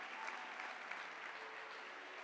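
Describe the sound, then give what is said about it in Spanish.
Applause offered to the Lord by an audience at a sermon's call: a continuous, even wash of many hands clapping, fairly soft and steady from start to finish. “¿Alguien le puede dar un aplauso al Señor?”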